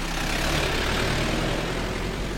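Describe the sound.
Steady engine and road rumble inside a moving car on the island of Mahé, a constant broad hiss and drone with no distinct events or voices.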